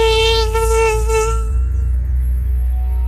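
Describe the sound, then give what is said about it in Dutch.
A mosquito whining at night in a bedroom while someone tries to sleep, a thin, high, steady buzz rich in overtones, brighter and louder for the first second and a half, then softer and even to the end. “dat je iedere nacht niet kunnen slapen omdat je achter zo'n mug aan zit te jagen die je eigenlijk gewoon per definitie nooit te pakken krijgt”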